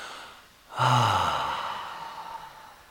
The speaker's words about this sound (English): Another deep breath. Let it all out this time.